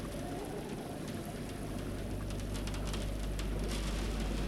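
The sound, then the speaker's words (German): Rain pattering against a window pane during a thunderstorm, a steady, dense, fairly soft hiss of drops that stays even throughout. “Es geht noch mal los, du! Der Regen klatscht gegen die Scheibe.”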